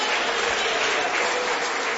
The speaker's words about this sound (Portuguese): Vamos receber o servo de Deus com palmas que glorificam e exaltam o nome de Jesus.